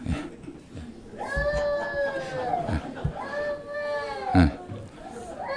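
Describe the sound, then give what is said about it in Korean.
A young child cries in two long wavering wails that sag in pitch, with brief sobbing catches between them and voices around. “요즘 노동자들이 울고 싶어요, 정말. 지금 저 우리 어린이가 그 심정을 대변하고 있습니다, 지금.”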